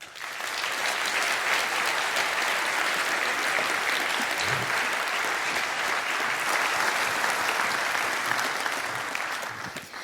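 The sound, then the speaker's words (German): Sustained audience applause after a talk, a dense, even patter of many hands clapping that holds at a steady loudness for about ten seconds before easing slightly at the end. “Ich denke, dafür nochmal ein ganz großer Applaus.”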